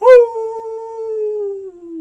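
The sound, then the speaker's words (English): A lone wolf howls in one sustained, clear tone lasting about two seconds. The pitch stays steady, then dips slightly at the close, with nothing else heard. “a wolf howling in the distance.”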